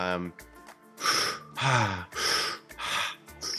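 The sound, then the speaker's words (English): A person demonstrates fast breathing for breathwork with a rapid series of quick, sharp inhales. Each breath is a short, hissy burst with a slight voiced edge, fairly loud and evenly spaced. “if you do quick inhales, like that's going to do something very specific to your body”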